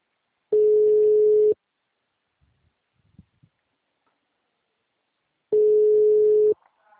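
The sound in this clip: A telephone ringing tone on a call: two low, steady one-second tones about four seconds apart, with quiet and faint rustling between them.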